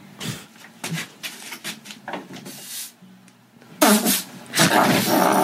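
Farts: quieter scattered rustles and soft bursts, then a few loud, rough blasts near the end.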